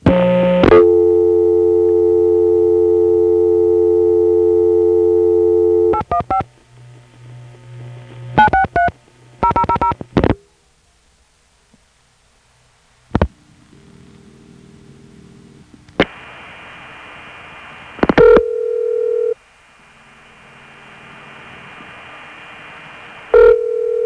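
A telephone call is routed from a New York 4A switch through a Rockford crossbar tandem switch: a steady tone, then bursts of signaling tones and sharp clicks, a quiet line with scattered clicks and hum, and another steady tone near the end.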